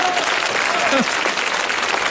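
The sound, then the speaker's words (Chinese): Audience applause at a live comedy performance: a dense, steady wash of clapping that lasts the full two seconds, with a voice speaking over it. “您先别鼓掌 啊！”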